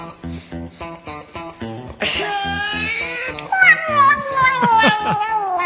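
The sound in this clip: A cat meows, with a long drawn-out cry followed by shorter, wavering calls whose pitch slides downward, heard among people talking.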